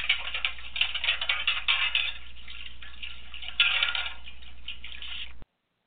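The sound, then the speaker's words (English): Metal plates being washed in a metal wash tub on a stove: a steady run of clinking, clattering and scraping with faint watery sloshing underneath, and one louder clank toward the end before it cuts off. “But if you hear that sound, which is the noise made by washing metal plates in a metal wash tub on the stove, then you know it's time for a little housekeeping.”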